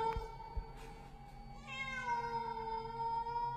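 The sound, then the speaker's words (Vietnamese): A green-eyed cat lets out a long, drawn meow with a clear harmonic tone, heard alone without voices. “vật mềm mềm ấy mở đôi mắt xanh lè lè, rít lên một tiếng meo”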